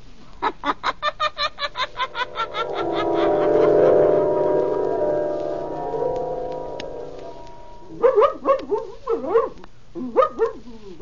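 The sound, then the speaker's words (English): A squirming dog being put on a leash barks and yaps in many short, sharp bursts, some in fast rhythmic runs, with a cluster of high, pitched yelps near the end. “Down, Blackie. Down, I say. Oh, if you keep squirming, I'll never get you on a leash.”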